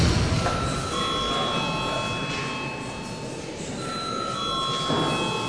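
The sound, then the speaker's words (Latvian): An electric bell rings to summon deputies into the Latvian parliament chamber, a continuous, even ringing with steady high tones that carries through the whole stretch without pause, with no talk over it. “Lūdzu zvanu.”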